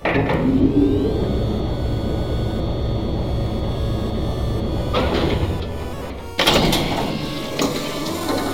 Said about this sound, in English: There might be something on the other side of this elevator. So I guess we're about to see.